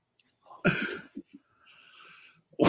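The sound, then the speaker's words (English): Heavy, out-of-breath gasping from a man after jumping on a trampoline: one loud rough exhale, a few short sharp breaths, then a faint strained voiced wheeze. “I hope he doesn't have a heart attack. I mean, he was out of breath there.”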